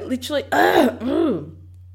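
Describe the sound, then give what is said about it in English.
Throat clearing from someone with something caught in the throat: a few rough, gravelly voiced bursts, the middle one loudest and noisiest, with a low steady hum underneath. “I don't know what happened there. There's something in my throat.”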